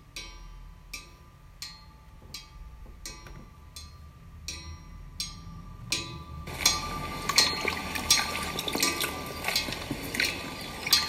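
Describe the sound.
Water being poured out of a homemade charcoal water filter: a regular series of sharp drips or taps for about six seconds, then a continuous splashing gush of liquid that carries on to the end.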